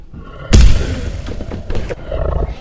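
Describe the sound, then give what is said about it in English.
A monster roars outside in a snowy cornfield: a sudden heavy thud-like onset opens into a deep, rumbling roar that swells again a few times before fading down. “Oh my god, there's a monster outside!”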